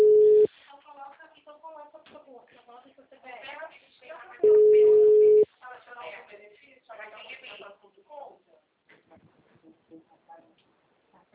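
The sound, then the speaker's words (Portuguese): Ringback tone on an outgoing phone call: two steady mid-pitched tones, one brief at the start and one about a second long, with voices talking between and after them. “tô ligando para os clientes aqui.”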